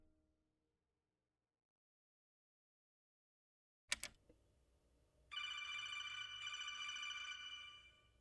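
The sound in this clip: A telephone rings before being answered. After a long silence comes a sharp click, then a bright, steady, buzzing ring tone that sounds alone for about three seconds before cutting off.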